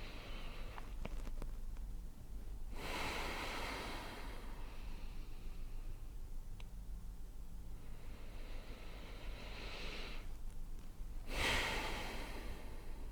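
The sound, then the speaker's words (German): Slow, deep breaths in and out during a calming breathing exercise: soft, airy rushes of breath separated by long quiet gaps, faint over a steady low background hum. “Dann atme doch einfach nochmal 2-3 Mal tief ein und aus. Nochmal tief einatmen.”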